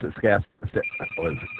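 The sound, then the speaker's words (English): A telephone ringing as a thin, steady, high electronic tone that begins partway through and continues beneath a person talking throughout. “Yeah, the phone's ringing here, but unfortunately it's not for us.”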